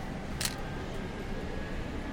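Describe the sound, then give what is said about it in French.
A camera shutter snapping a photo aboard a sightseeing bus in Paris: a single quick, crisp click over a steady engine hum. “Vite, je prends une photo.”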